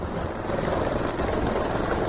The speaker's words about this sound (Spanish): Es el helicóptero del 112 durante una de sus operaciones de este fin de semana.